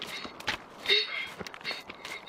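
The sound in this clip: Children's running footsteps: a quick, irregular patter of light, soft thuds, fairly faint.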